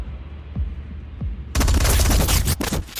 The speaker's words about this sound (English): goes down in a hail of bullets from the rookie behind him